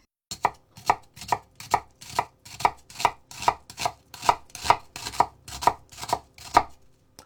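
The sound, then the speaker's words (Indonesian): Knife chopping an onion finely on a board, the halved onion sliced thin lengthwise and then crosswise into small pieces: many crisp, evenly spaced chops in a steady rhythm, with no talk. “Bawang dipotong dua secara memanjang. Iris tipis memanjang, lalu iris lagi melebar sehingga menghasilkan cincangan yang kecil-kecil.”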